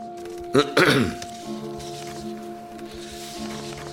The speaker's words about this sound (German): ich höre was. Es fing an mit einem Räuspern.